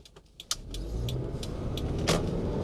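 A car heard from inside: a few sharp clicks and taps at first, then a steady engine and road rumble that swells and holds at a fuller, continuous level with scattered light knocks.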